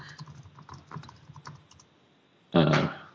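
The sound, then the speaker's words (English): Clicks of typing on a computer keyboard: a run of light, irregular keystrokes over the first second and a half, then a quiet pause and a brief, louder burst of sound near the end. “You try and free the next one. I'll just type in”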